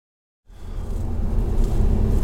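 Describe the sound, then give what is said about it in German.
After a moment of silence, a steady, loud low rumble of a car driving along a road into Zittau in Saxony sets in abruptly and holds evenly. “Wir fahren jetzt gerade nach Zittau rein.”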